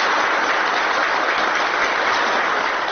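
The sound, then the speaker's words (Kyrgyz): Prolonged applause at a security council meeting after the Turkmen president presents his book. The clapping is a dense, loud, unbroken wash of many hands, steady from start to finish. “Кол чабуулар узакка созулду.”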